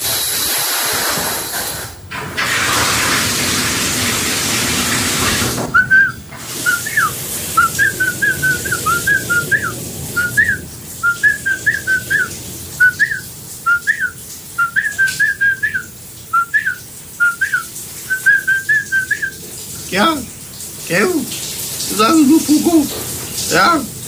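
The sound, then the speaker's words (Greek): A man whistles a familiar chant in the shower, a little limply from tiredness after work. It opens with a steady hiss of running shower water, then many short, bright notes follow one another in a bouncy rhythm. “επειδή ο ίδιος είπε ότι σφυρίζει, ξαναμπαίνουμε πάλι στον ντουζ να ακούσουμε τι ακριβώς σφυρίζει.”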